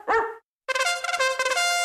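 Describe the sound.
A dog barks sharply once, then after a short gap lets out a longer, harmonic, yappy run of barks that wavers in loudness, heard alone.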